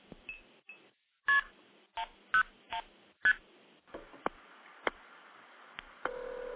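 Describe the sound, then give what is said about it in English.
Telephone keypad tones sound while dialing into test recordings on an Asterisk phone system. Several short, sharp dual-pitch beeps come in an uneven rhythm, followed by fainter clicks and a brief final tone, with no voices. “We'll blow Evan off here and dial into one of the test recordings”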